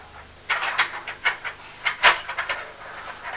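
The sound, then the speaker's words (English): Clattering from a train going round in a circle: after a brief quiet start, many irregular clicks and clacks follow at an uneven rhythm, with no voices. “Is that train just going round in a circle?”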